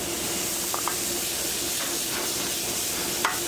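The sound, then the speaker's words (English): Chopped onions and garlic sauté in a pan of heated butter and cooking oil, giving a steady, dense sizzling hiss throughout with a few faint clicks and pops. “We're just going to saute it till it starts to stick a little bit.”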